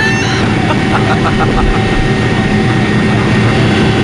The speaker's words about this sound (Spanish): Uy, qué bonito volar en avión.